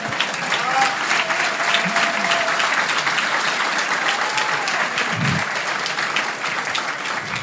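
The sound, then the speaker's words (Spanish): Dense, steady applause from an audience at a book presentation with live music. It runs throughout without a break. “¿Quién aplaudía a León de vuelta? Por favor.”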